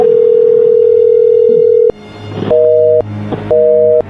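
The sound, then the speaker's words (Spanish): A telephone call rings out unanswered. A long steady tone is followed by two short, double-pitched ringback bursts separated by brief gaps, all loud and clear. “A ver, márcale por última vez.”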